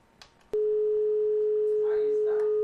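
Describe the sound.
A telephone line tone heard while calling a number: a click, then one loud, steady, unbroken tone at a single pitch that holds to the end. Faint voices sit beneath it.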